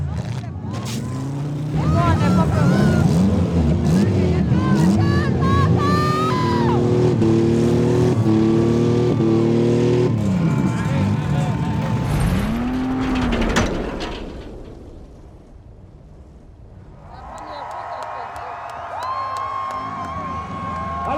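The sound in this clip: Six-cylinder race cars roar through a race while a crowd cheers. A loud engine drone climbs in stepped surges, sweeps past, then drops away before a quieter stretch of sound returns.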